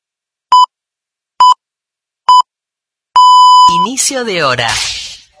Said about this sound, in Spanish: Inicio de hora. Este sonido alerta que ha comenzado una nueva hora.